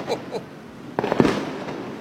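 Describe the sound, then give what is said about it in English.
Fireworks exploding in a few sharp bangs and crackles that cluster about halfway through, rising above a low background hum. “Ready to light up your 4th with more boom for your buck? Head to Worley Fireworks”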